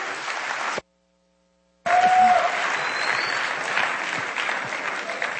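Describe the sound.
Audience applause welcoming a speaker on stage: broad, steady clapping that cuts out to a brief silent gap early on, then resumes at a full, even level to the end.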